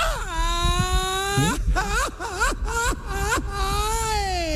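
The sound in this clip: Someone cries in loud, drawn-out wailing, with a high moan that breaks into several short, choppy sobbing whimpers before settling back into a long sustained wail.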